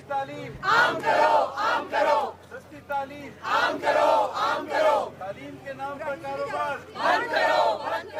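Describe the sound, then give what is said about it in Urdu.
Crowds of protesting parents chant slogans against private school fees outside a press club. Loud group voices repeat rhythmic chanted phrases in recurring bursts, with short lulls between them. “درجنوں والدین نے private اسکولوں کے face کے نظام کے خلاف نعرے بلند کیے۔”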